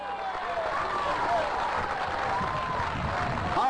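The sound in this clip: Congregation applauding at a church service, a dense, steady wash of clapping that fills the whole stretch without clear breaks, with voices mixed into the noise.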